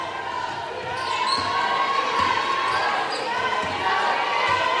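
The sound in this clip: Basketball dribbling during a game tip-off, with a few dull bounces under steady crowd noise throughout.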